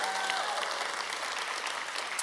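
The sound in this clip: A church audience applauds to welcome online viewers during a service, with dense, steady clapping that holds at an even level throughout.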